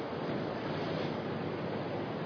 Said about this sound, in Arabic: شوفوا حضراتكم المشهد، مياه بتنزل بغزارة حتى يعني بتسد الطرق